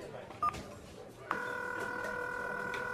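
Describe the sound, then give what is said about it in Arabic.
A telephone number is dialed: a single short keypad beep sounds over faint background hiss. Shortly after, a steady, unbroken electronic tone starts and holds to the end. “انزين اتصل به شوفه اكيد في الدرب.”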